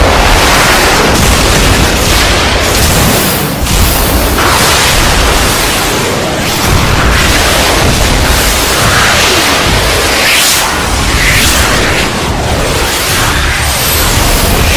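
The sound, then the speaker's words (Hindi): Missiles firing and exploding in a six-missile combined strike amid incoming shells: a loud, unbroken roaring rush with repeated heavy bursts and booms running through the whole stretch, no voices. “हम एक मुश्तरका हमला करेंगे, 6 missile और fire करें।”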